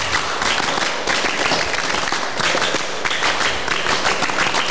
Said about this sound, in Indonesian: 2 kali tepuk pramuka.